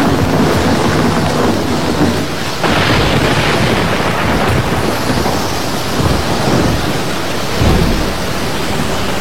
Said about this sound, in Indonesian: Petir menggelegar sambung menyambung.